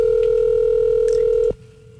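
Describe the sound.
Telephone tone on an unanswered call: a single steady electronic tone holds loud and unbroken for about one and a half seconds, then cuts off abruptly, leaving faint low hum.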